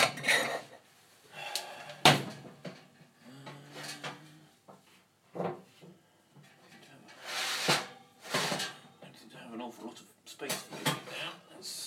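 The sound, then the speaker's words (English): A metal oven shelf is moved in a home kitchen: a few sharp clanks and rattling scrapes come in scattered bursts between stretches of talk. “Let's see if that goes in the oven. Nope, I do need to move the shelf.”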